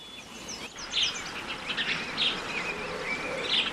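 Sparrows chirping in many quick, high, overlapping chirps over a steady, buzzy background hiss.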